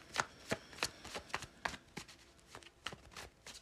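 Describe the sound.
Tarot cards are shuffled by hand during a reading, giving a series of many sharp, papery slaps and flicks at a loose, uneven rhythm, fairly soft and alone.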